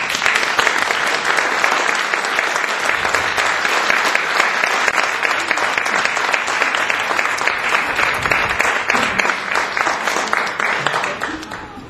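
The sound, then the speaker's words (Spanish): A concert audience gives a big, sustained round of applause to welcome a performer, dense and loud clapping that keeps an even intensity for many seconds before easing off slightly at the end. “Les pido un gran aplauso para recibir a Osvaldo Torres.”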